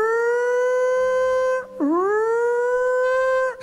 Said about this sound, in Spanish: La sirena de la yarda sonando.